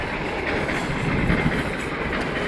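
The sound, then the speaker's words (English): A double-decker train passes on a track beside a windmill in the Netherlands, a loud, steady rumbling roar with a continuous wheel-on-rail clatter that holds throughout, with no talking. “And on the other side of this windmill is a train track. You just heard a train going past there. These trains are interesting. They're double deckers”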